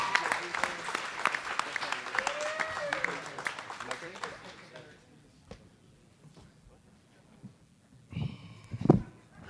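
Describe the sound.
A round of applause from a live audience for two contestants about to face off, with dense clapping that gradually fades away, then a voice speaks briefly at the end.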